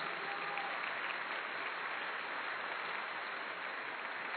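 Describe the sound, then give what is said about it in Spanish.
Applause from a church audience during a sermon: a steady, even wash of many hands clapping, sustained at a constant level from start to finish without distinct individual claps standing out. “Dele ese aplauso fuerte al Señor.”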